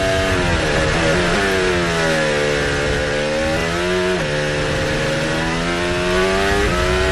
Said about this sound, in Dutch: Je hoort hem daar niet echt hard door accelereren.